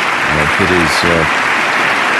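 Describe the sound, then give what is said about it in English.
Sustained applause fills the House chamber as nearly everyone rises during a presidential State of the Union address, honoring servicemen, servicewomen and diplomats. A steady wash of clapping continues throughout while a voice speaks over it. “It is deeply into it by now, and everyone in the House chamber, I think, has risen, just about everyone, applauding the President's remarks about American servicemen and women and American diplomats”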